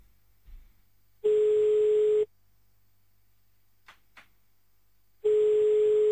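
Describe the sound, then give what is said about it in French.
A telephone ringing tone plays while a listener in Verviers, Belgium, is called back: two steady, buzzy tones about a second long and about four seconds apart, with two faint clicks between them. “Ça a coupé. On va pas se laisser faire. Allez, on rappelle à Verviers”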